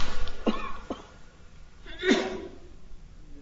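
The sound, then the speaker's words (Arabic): A sneeze during an Arabic religious lecture, heard as one sharp, loud breathy burst, preceded by a couple of fainter breathy sounds, with no talk over it. “رحمك الله.”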